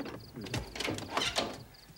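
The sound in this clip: A door is opened: faint mechanical clicks, rattles and a short scraping slide, a handful of small irregular knocks of the latch and hinges at low volume, with no voices.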